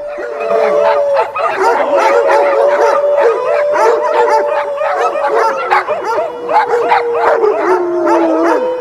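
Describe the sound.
A man's howl, then a sled dog team answering with loud overlapping howls, yips and barks, many voices rising and falling together in a dense, continuous chorus.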